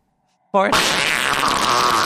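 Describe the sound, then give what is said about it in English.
A loud, raspy fart in a Halloween-themed house bursts in abruptly after near silence, then carries on as one long, unbroken, buzzy blare. “Farts are not a Halloween thing.”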